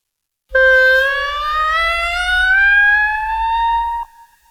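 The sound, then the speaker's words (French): An ascending clarinet glissando: one loud, sustained tone slides smoothly and steadily upward for about three and a half seconds, heard alone, then stops abruptly. “Vous aimeriez entendre un glissando ascendant, rien de plus facile.”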